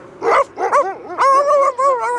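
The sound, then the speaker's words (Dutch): Huskies bark loudly in a few high, yelping calls. The cries are pitched and whiny, with short gaps between them and one longer drawn-out yelp near the end. “Opeens begonnen de huskies luid te blaffen.”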